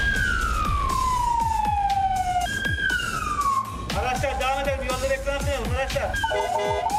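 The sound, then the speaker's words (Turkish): An ambulance siren wails as the vehicle sets off on a call from Bakırköy: long, loud falling sweeps switch to fast warbling yelps, over a steady rumble of engine and road noise. “112 hattına gelen ihbarla birlikte Bakırköy hareket noktasından hep birlikte şimdi saat 19.54 itibariyle yola çıkacağız.”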